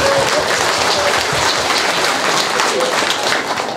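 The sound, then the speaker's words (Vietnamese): Audience clapping hands at a temple gathering: loud, dense applause that runs steadily throughout, easing slightly near the end, with a few voices mixed in. “Vỗ tay đi.”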